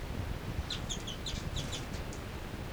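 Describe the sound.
Faint, high bird calls: many short chirps, mostly in quick pairs, repeat over steady background hiss.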